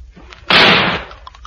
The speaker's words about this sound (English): Put your fingers in your ears. I'm going to shoot the top of it.